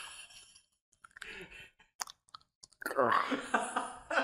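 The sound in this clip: Gum is chewed close to the microphone, making sparse wet clicks and smacks, and then a person starts talking.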